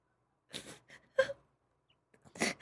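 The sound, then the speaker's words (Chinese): A woman cries in a few short, broken sobs separated by quiet pauses, her wavering voice rising in uneven bursts. “姑娘，别哭了”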